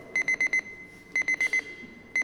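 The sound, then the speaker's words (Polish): An electronic alarm clock beeps in quick bursts of four high, even tones. The bursts repeat about a second apart, with a further group starting at the end, at moderate loudness and with no voices. “This is alarm clock.”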